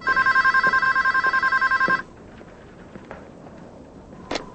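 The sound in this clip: Telephone ringing indoors: a rapid, trilling electronic ring of many quick pulses lasting about two seconds, then cutting off, leaving faint background noise and a brief soft click.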